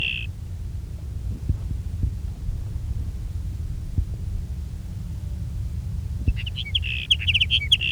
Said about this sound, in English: There's sage sparrow number two.